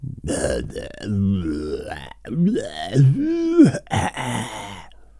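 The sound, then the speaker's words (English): A man theatrically clears his throat while standing on a makeshift bucket podium before a festival speech, making several drawn-out, gravelly vocal grunts with swooping pitch that rise and fall over about five seconds. “He cleared his throat dramatically.”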